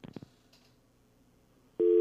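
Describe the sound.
A telephone busy tone sounds after the caller hung up. A few faint clicks come first, then a loud, steady electronic tone starts abruptly near the end.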